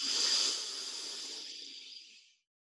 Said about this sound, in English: One more time, deep breath in through the heart.